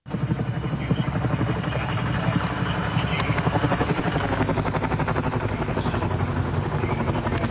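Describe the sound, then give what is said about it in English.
Helicopters fly over the Castle Fire wildfire in the US, their rotors producing a loud, continuous rapid chopping throb with a dense engine roar that holds steady throughout. “So that's the sound of helicopters in the air in fighting the Castle Fire in the US.”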